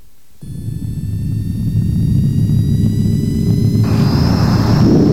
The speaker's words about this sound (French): Les passagers à destination de Pointe-à-Pitre sont priés d'attacher leur ceinture. Décollage immédiat.